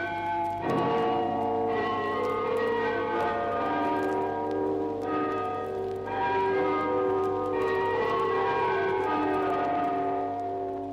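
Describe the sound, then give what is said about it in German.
Church tower bells ring a melody, the Internationale, for the anniversary of the October Revolution. Resonant struck tones follow one another in a measured sequence, their long ringing overlapping throughout. “Vom Glockenturm tönt zum Jahrestag der Oktoberrevolution die Internationale.”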